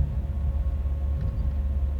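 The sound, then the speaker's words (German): A blue Subaru car drives along a street, giving a steady low rumble of engine and road noise that stays constant and fairly quiet throughout, with no talk. “Am Steuer des blauen Subaru sitzt Iyad. Er hat schon auf mich gewartet. Wir fahren am Zug vorbei.”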